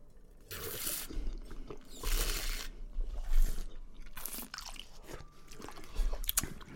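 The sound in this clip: Sipping a 2019 wine during a tasting: wet, airy slurping and swishing in the mouth, with several noisy bursts that swell and fade over a low rumble. No voices are heard.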